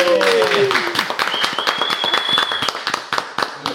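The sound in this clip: Applause welcomes two guests, dense rapid clapping filling the whole stretch, with a shout at the very start.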